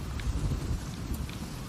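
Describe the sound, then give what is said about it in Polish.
A video game thunderstorm gives off a low, continuous rumble of thunder with a steady hiss of rain. The roll stays dull and even, without sharp cracks. “czekaj, bo jakaś burza idzie”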